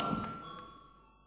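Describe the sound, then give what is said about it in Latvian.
A bell rung in a parliament chamber to call members to a vote: a bright, sustained metallic ringing tone that starts at once and fades steadily over about a second. “Lūdzu zvanu.”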